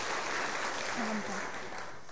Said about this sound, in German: ein Applaus für unseren Gastprediger.